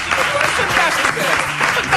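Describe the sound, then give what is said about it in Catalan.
Loud, dense applause from an audience cheering a woman at a gathering, a brief, continuous wash of many hands clapping with no break. “Gràcies, un aplaudiment per la Dolors, home, clar que sí.”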